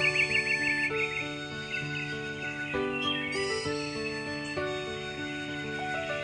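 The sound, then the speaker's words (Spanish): Small birds chirping at dawn, quick high twitters and tweets layered over steady instrumental music that carries on throughout. “¡Ya amaneció! ¡Escuchen los pajaritos cómo cantan!”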